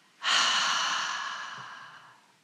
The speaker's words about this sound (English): Double inhale, tense, and double exhale.